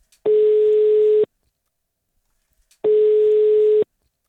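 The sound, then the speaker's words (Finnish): Telephone ringback tone while a call is being placed: two long, steady, mid-pitched tones of about a second each, separated by a pause of roughly a second and a half, with no talk. “Toivottavasti se tulee nyt, kun mä soitan Roosalle.”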